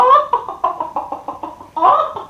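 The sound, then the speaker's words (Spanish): Clucking of a hen: a quick run of short, voiced clucks in a steady rhythm, followed by a louder, longer call and one final cluck, with no talk over it. “¿Qué fue lo que sonó? Como que era la gallina, vea.”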